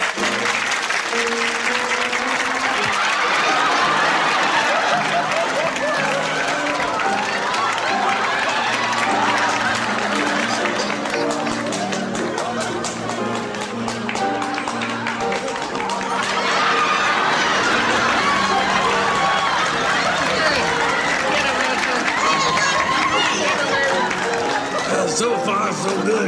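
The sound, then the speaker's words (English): Audience applause for seven semifinalists in a beauty pageant swimsuit competition: loud, continuous clapping that holds throughout, dips briefly midway and then swells again. “Let's hear it out there for our 7 semifinalists.”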